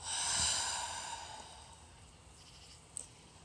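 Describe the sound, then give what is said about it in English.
A breath released audibly as a soft, sighing exhale that starts fairly strong and trails off gradually, followed by near silence and one faint click. “And it's okay to make noise when you breathe out. Last time, breathing in and breathing out.”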